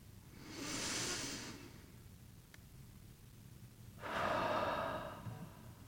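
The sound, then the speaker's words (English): Deep breathing during a guided meditation: two soft, airy breath sounds separated by a quiet pause of about two and a half seconds, the second fuller and slightly longer. Both are gentle and unhurried, with no talking. “And you might join me in a breath.”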